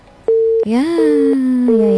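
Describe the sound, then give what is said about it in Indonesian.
A mid-pitched telephone tone after a phone-in call is cut off. It starts abruptly and holds for about two seconds, with a few brief clicks and a second, gliding tone layered over it. “Terputus. Bisa dicoba kembali.”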